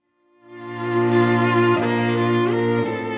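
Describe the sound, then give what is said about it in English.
String quartet music from the Pegasus String Quartet, three graduate students and a professor from UCF's School of Performing Arts, in rehearsal. Rich sustained chords fade in and hold steadily, with the harmony shifting a couple of times. “That's the sound of the Pegasus String Quartet, made up of three graduate students and a professor from UCF's School of Performing Arts. The musicians are rehearsing for their upcoming performance on Friday”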